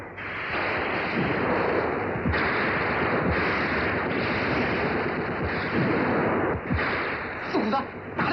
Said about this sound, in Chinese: 战斗中，战士们对准肆无忌惮进犯的敌人，瞄准射击。